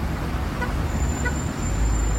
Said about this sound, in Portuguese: Na Avenida André Araújo, todos os semáforos ficaram apagados. O reflexo foi a confusão no trânsito.